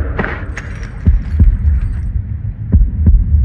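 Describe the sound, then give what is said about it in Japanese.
A heartbeat sounds as low, soft thuds falling in paired beats at a steady pace over a constant low hum. “始まりの鼓動が聞こえる。”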